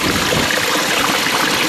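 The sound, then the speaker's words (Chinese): Water gushes from a cold mountain spring at Changbai Mountain and spills into a small waterfall, making a steady, loud, hissing rush with a splashy texture throughout. “这是一个泉眼啊，里面水哗哗从这儿流出来，形成了一个小的瀑布。”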